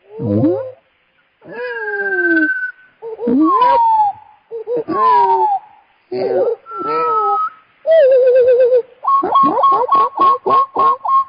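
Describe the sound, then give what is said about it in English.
A bird calls in a loud sequence of varied phrases, with sliding whistles, bent notes and a wavering trill, and finishes with a quick series of clipped repeated notes. “Let me pull up another bird sound here.”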